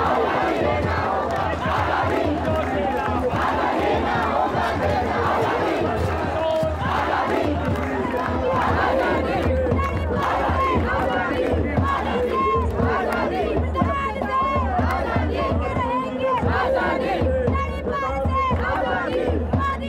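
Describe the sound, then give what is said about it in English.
Crowd of people off stage at an event, reacting with loud, continuous shouting and cheering. Dense overlapping voices hold a steady roar for the whole stretch without a break. “the reactions from the people off stage is not something that you can puppeteer.”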